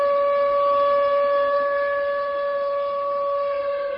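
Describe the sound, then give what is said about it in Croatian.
Civil defense siren sounding across Beijing and other Chinese cities to mark national mourning after the Sichuan earthquake, holding one steady, unwavering tone throughout with no other sound over it. “Početak žalosti tačno u 2:28 poslije podne, kada se po lokalnom vremenu zemlja prvi put zatresla, u Pekingu i drugim gradovima Kine označio je zvuk sirena.”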